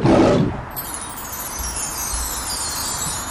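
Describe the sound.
A lion's roar bursts out loud and low at the very start and cuts off after about half a second. A faint, steady hiss follows.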